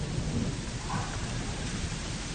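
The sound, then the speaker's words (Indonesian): Steady rain falls with thunder rumbling low underneath, outside a school that has emptied after classes. The downpour stays even and fairly loud throughout, with no distinct breaks or voices. “Sambil menunggu hujan reda.”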